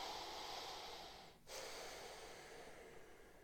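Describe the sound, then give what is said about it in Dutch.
A slow, deep breath in and out, taken to relax before speaking: a soft, faint breathy hiss that runs steadily, dips briefly midway, then swells again, with no talk. “wat ik doe is voordat ik ga spreken, eventjes mijn oog dicht en dan even diep in en uitademen”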